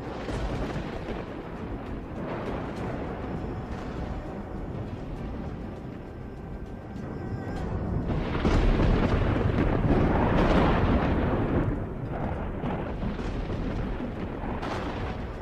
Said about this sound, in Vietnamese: Trong vầng mây có tiếng sấm vang vọng đùng đùng, không gian vần vũ. Tiếng sấm rền vang quần quận trên tầng mây của địa phủ.